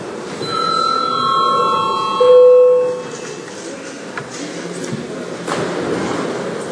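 An electric bell rings in a parliament chamber to call deputies to registration, a steady ringing tone lasting about three seconds, then fading into quieter room noise.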